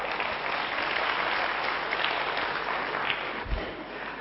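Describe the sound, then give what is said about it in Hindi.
An audience applauds at a gathering with dense, continuous clapping that holds steady and eases off slightly near the end. “अपने लिए तालियां तो बजा।”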